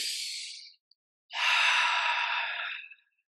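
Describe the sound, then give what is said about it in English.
A deep breath, heard as two airy breath sounds: a first one that trails off, then after a pause a longer, full exhale that fades out. No talking. “I just want to say, deep breath. Let's say deep breath.”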